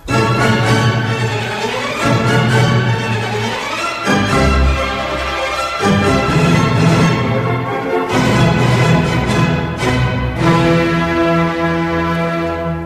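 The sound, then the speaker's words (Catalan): An orchestra plays from Johann Strauss's operetta Die Fledermaus in a loud, full, sustained passage of shifting harmonies and chords. The instruments carry the music alone, with no singing. “Escolteu el Fledermaus, el ratpenat.”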